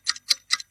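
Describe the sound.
A clock ticks with quick, crisp, evenly spaced clicks, a few sharp ticks alone and fairly faint.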